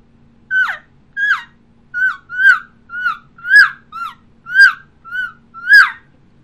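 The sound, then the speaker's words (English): A human caller imitating an elk calf's call: ten loud, high, whiny mewing squeals, each with a quick downward slide, repeated at a steady rhythm with no talking. “So that calf sounds like this.”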